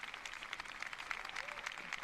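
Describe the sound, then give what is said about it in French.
Faint, steady applause from an audience for a woman who has just finished speaking at an event attended by the pope, many hands clapping in a quick, dense patter throughout. “Cette dame est très applaudie et elle va saluer également le prêtre, le pape.”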